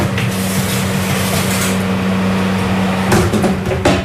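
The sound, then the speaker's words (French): An oven runs with a chicken going in to roast, a loud steady low hum throughout, with a couple of sharp knocks near the end. “C'est le bruit du poulet que je mets au four.”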